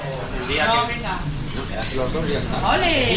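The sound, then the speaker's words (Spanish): Morning café ambience in Logroño: dishes, pots and cutlery clink and clatter continuously under a murmur of voices, with bright metallic chinks and scrapes rising out of the busy bed of noise. “Comienzo del día en una cafetería de Logroño.”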